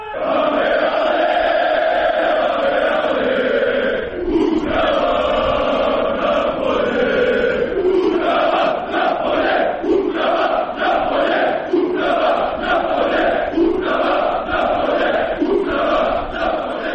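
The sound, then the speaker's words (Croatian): Borac Banja Luka football supporters protest in the streets of Banja Luka, a crowd chanting loudly in unison with a steady, repeating rhythm of shouted calls throughout. “Najvetreniji navijači Borca u srijedu su održali protest na ulicama Banja Luke zbog aktualne situacije u banjalučkom klubu, tražeći odlazak uprave.”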